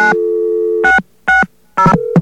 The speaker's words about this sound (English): And let's get a dial tone.